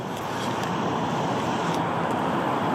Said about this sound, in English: Look, there's already traffic.